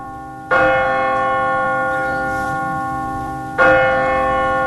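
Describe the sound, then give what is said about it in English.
The church bell of St. Mark's rings out alone, two clear strikes spaced about three seconds apart, each with a bright metallic attack and a long, slowly fading hum. “The bell of St. Mark's.”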